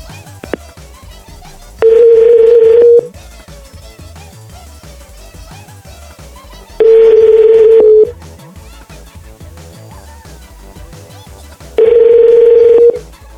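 Ringback tone of an outgoing phone call to a bank: three steady mid-pitched beeps of about one second each, evenly spaced with long gaps, loud over a quieter continuous background.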